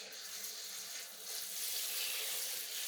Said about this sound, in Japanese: ではまずは軽くシャワーで流していきますね。ぬるめのお湯なので安心してください。